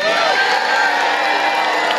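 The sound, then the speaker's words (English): Crowd cheering and whooping at a presidential campaign speech after a pledge on immigration enforcement, a loud continuous roar of mixed shouts and high whoops with no break. “Who are the idiots in the crowd? They actually believe that? Like, enough that they cheered?”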